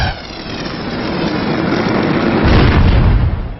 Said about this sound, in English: Foe Blazend used torch.